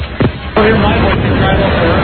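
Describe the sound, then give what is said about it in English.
Street noise outside the CBS store at the corner of 53rd and Broadway: a loud, steady roar of traffic blended with crowd babble, with a brief louder burst near the start before the din settles. “Got an update out here outside the CBS store on the corner of 53rd and Broadway.”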